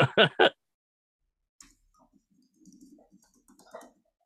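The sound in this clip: Someone types a search on a computer keyboard. Three quick, loud key clicks open the moment, then quiet follows with faint scattered sounds.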